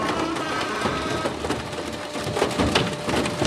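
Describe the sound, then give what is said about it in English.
Heavy crushing from a huge scrapyard machine flattening an old Mazda car for metal recycling: a dense, continuous grinding roar, loud throughout, with scattered cracks and splintering bursts running through it. “That's the sound of a Mazda being flattened into a metal pancake.”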